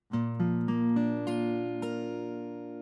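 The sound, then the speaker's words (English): A B-flat chord is played note by note, with about six notes entering one after another before the full chord rings out alone and slowly fades. “A B-flat chord sounds just like this.”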